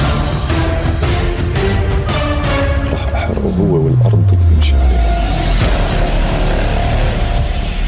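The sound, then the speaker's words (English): Dramatic trailer audio for the StarzPlay streaming TV platform, loud throughout, with a few sharp hits early on and a deep tone sliding steadily downward, then settling into a low rumble. “That is a trailer for Stars Play, the streaming TV platform”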